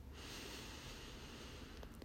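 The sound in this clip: A nasal exhale during a yoga breathing exercise: a soft, steady, airy rush of breath through the nose that runs through the whole clip at a faint level.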